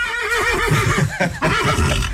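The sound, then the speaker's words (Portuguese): A horse neighing loudly in one long, wavering whinny with a strong shaking vibrato and a brief break near the end, heard alone without voices. “Ao invés de um bichinho pequeno, apareceu montado no seu cavalo.”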